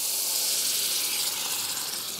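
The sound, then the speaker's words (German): Sizzling hiss of vinegar hitting a hot pan of mushrooms, red onions and garlic as they are deglazed; a loud, steady, bright hiss runs unbroken throughout, with no talk. “Dann lösche ich mit Essig auch wieder ab.”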